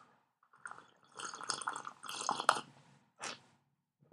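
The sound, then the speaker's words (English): Quiet slurping sips of coffee from a cup: a few wet, noisy bursts bunched together, then a short final sip after a brief gap. “Let me sip my coffee real quick.”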